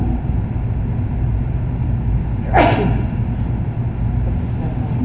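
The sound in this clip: A single sharp sneeze bursts out over a steady, low rumbling hum that continues unchanged before and after it.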